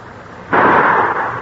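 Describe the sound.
A single gunshot fired at a floating log, with a sharp, loud onset that breaks a quiet background and leaves a broad, rushing tail lasting about a second.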